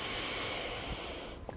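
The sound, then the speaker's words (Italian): A person breathing during a breathing exercise lets out one long, steady, hissing breath that fills most of the moment, then falls away to near quiet with a faint soft catch at the end. “espiro, inspiro, espiro, inspiro,”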